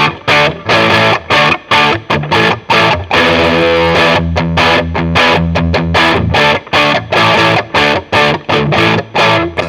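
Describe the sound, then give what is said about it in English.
An electric guitar plays through a light, tube-screamer-style Palisades overdrive pedal on its gain A setting, striking loud, gritty chords in choppy rhythmic bursts with brief gaps and a few longer sustained passages, heard alone. “So the Palisades is kind of like a tube screamer, kind of light overdrive.”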